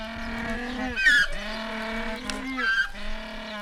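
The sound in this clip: Humboldt penguin at a zoo giving its braying call, a drawn-out, donkey-like harmonic honking with two harsher, louder bursts rising out of the steady tone.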